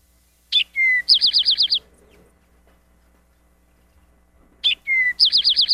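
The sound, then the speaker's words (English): Eastern Towhee song in its 'drink your tea' phrase, given twice with a pause between. Each phrase opens with two clear, bright notes and ends in a quick ringing trill of several rapid notes. “I'm going to put the Eastern Towhee on just for a short time here so you can hear it say, drink your tea. Eastern Towhee.”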